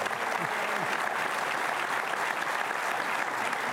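Studio audience applause welcoming a couple of guests onto the set, a steady, dense wash of clapping that stays even from start to finish.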